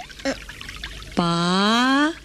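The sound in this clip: Water pours into a container in one steady stream lasting about a second, its resonant tone rising clearly in pitch as the vessel fills, then stopping abruptly.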